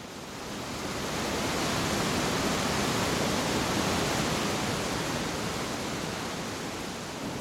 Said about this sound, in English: This is a big river. There's big boulders.